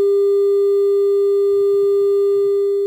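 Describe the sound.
Telephone line tone on a failed call: a single loud, unbroken electronic note at one steady pitch, with a faint low murmur underneath in the second half.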